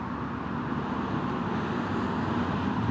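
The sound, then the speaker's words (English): Road traffic moves freely north and south on the reopened A9 after an accident, a steady low rumble of passing vehicles with no clear breaks. “From where I'm standing, vehicles are starting to move both north and south freely”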